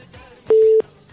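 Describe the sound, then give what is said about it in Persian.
A single short, steady telephone tone, like a busy or disconnect beep after a caller's line drops. It sounds briefly and alone over a faint background. “بله خب تماس دوست ما قطع شد”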